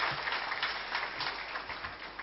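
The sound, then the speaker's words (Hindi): Applause from an audience thanking a guest speaker after a meditation talk: a steady, faint wash of many hands clapping runs evenly from start to end, with no voices over it. “भ्राता राजीव गुप्ता जी का हम दिल से धन्यवाद करते हैं जोरदार तालियों”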